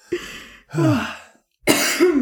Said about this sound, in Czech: Pardon, jsem se z toho zakuckala